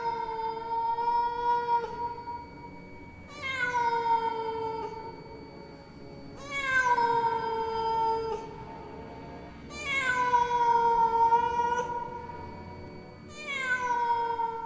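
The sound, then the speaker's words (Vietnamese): A cat yowls eerily in five long, drawn-out cries, each starting high and sliding downward. The cries are evenly spaced and fairly quiet, with no other sounds. “Nó kêu lên những tiếng vô cùng thảm thiết, tiếng mèo kêu nghe ghê rợn hết cả người”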